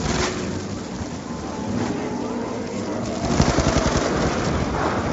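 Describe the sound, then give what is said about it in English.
Gunfire from players shooting zombies in a video game: rapid, rattling automatic bursts run steadily throughout and grow somewhat louder and denser in the second half. “Oh, that guy's gonna go down. I'm not shooting his zombies for him.”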